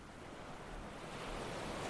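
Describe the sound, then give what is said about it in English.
Ocean waves wash in a soft, continuous roar of surf, swelling slightly in loudness with no voices. “These background waves are old waves for the time being, by the way. You might even recognise them.”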